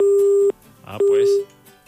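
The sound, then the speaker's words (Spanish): Telephone busy tone after a dropped call: two steady, loud low beeps separated by a short gap, with a voice talking between and over the second beep. “Que se le cae la llamada a la persona que está... Se le corta.”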